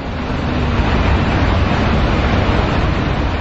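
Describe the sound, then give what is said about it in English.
Doe Run's lead, copper and zinc smelter runs in the high Andean town of La Oroya, Peru. It makes a loud, unbroken industrial roar, a dense rumble mixed with hiss that stays constant throughout. “This is the sound of globalization. American mining giant Doe Run operates this lead, copper, and zinc smelter here in the high Andean town of La Arroya, Peru.”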